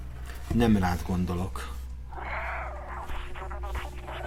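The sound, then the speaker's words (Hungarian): A cat in a video game meows twice in short tonal calls. Talking and softer game sounds follow. “nagyon ügyes ez a cica”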